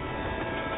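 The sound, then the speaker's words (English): A freight train gives off a brief, low, steady rumble, faint and even with no horn. “And that is a freight train.”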